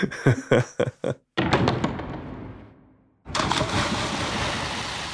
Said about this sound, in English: So that is the sound of like somebody diving off a diving board and then making a big splash. We initially actually used a like library sample for that.